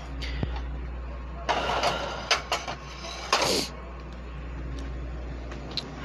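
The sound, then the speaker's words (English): Dishes being unloaded from a dishwasher: a few faint clinks and knocks of crockery scattered over a steady low hum, with quiet stretches between the handling sounds. “And you may hear some background noise right now. I'm working on unloading the dishwasher so I can reload it.”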